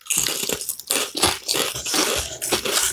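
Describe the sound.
Crunchy bites and chewing of a crusty garlic butter baguette with chives, the hard end piece, giving loud, dry crackles in quick, irregular bursts without talk.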